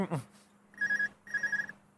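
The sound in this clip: Telephone ringing in two short, bright, electronic trills at a steady high pitch, fairly faint, with a brief voice heard just before the first ring.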